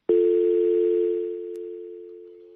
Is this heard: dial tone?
yes